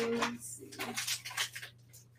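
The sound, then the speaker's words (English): Water is poured into a bowl of flaxseed meal, making a soft, brief splashing hiss with light clinks of the bowl. A voice is heard briefly at the start. “Just gonna put some water in here. Yeah, I'll put like maybe a half cup of water.”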